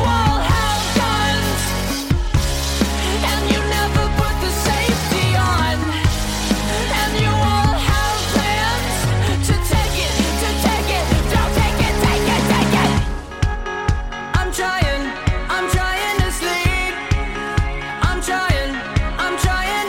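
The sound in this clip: A song chorus plays loud and full throughout, with dense band instrumentation; about two-thirds of the way in, the texture shifts to sharp, regularly repeating beats.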